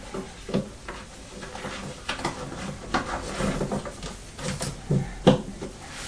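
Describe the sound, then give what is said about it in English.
Post is pushed through a letterbox slot in a scattered series of dull clacks, knocks and rattles, with rustling between them over low background noise. “Are you doing posting through the slot?”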